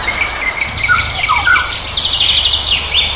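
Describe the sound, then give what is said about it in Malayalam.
Golden oriole song: several short, bright whistled and chirping notes that rise and fall, heard over a steady background hiss. “നൂൽമഴയുടെ നേരിയ തരുമ്പ് കൂടി ചേരുന്നതോടെ മഞ്ഞക്കിളിയുടെ പാട്ടിന് ആസ്വാദ്യതയേറും.”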